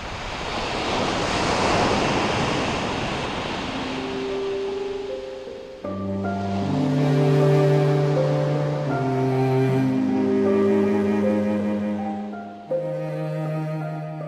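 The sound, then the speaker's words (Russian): Pacific Ocean waves with a light breeze make a broad, rushing wash of surf that swells and settles. After a few seconds, steady musical tones enter and play over the continuing sea noise. “День наливался голубизной небо, потянуло ветерком, разметав остатки утреннего тумана. Еще раз хочется сказать, Тихий океан огромен.”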